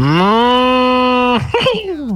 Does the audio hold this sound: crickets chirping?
no